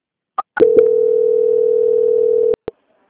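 A telephone line tone sounds during a call transfer: a few short clicks and beeps, then one steady continuous tone lasting about two seconds that cuts off abruptly, followed by a brief click.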